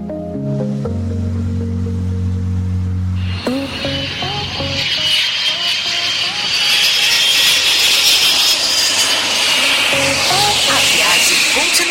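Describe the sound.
An airplane takes off with a loud, hissing jet engine roar that builds and holds, preceded by a few sustained musical tones.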